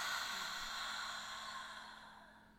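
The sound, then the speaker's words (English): A slow, deep breath during a guided breathing exercise, heard as a soft, airy exhale that gradually fades, quiet and alone. “Breathe in. And breathe out.”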